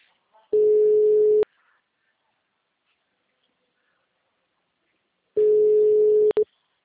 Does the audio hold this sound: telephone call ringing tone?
yes

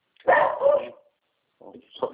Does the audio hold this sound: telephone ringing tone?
no

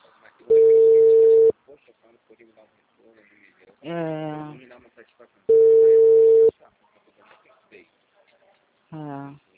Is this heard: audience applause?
no

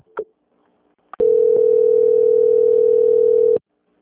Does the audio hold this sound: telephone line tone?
yes

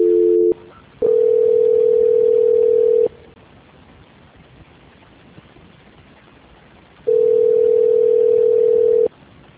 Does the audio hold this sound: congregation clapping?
no

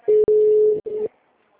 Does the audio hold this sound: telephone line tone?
yes

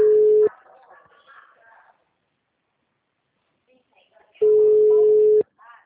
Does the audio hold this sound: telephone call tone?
yes

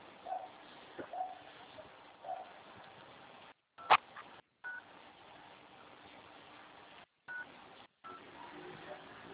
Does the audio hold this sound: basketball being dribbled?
no

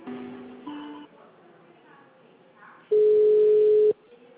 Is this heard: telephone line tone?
yes

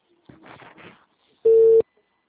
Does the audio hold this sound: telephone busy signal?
yes

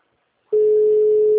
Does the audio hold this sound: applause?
no

